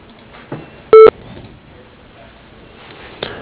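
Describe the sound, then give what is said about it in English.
An answering machine beep sounds once: a single short, loud electronic tone with bright harmonics, standing alone over faint background hiss with a couple of soft clicks. “Please leave a message at the beep and we will get back to you as soon as possible.”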